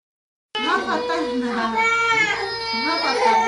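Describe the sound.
A three-year-old girl cries for food in a crowded apartment shared by Syrian refugees, with loud, continuous sobbing and wailing that rises and falls in pitch without a break.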